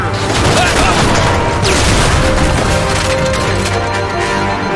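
Loud gunfire and blasts in a Halo-style video game battle with Marines, Ghosts and a Phantom dropship: dense, continuous crackling volleys over a heavy rumble, sustained throughout.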